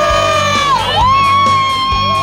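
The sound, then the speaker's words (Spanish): A loud, sustained revolutionary shouted cry that dips in pitch midway and then levels off, held over steady low rhythmic thumps. “¡Ese grito! ¡Un verdadero grito revolucionario!”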